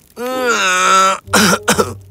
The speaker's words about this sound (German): Die schläfrige Fledermaus, die kopfüber außerhalb des Gefängnisses hing und versuchte zu schlafen, räusperte sich.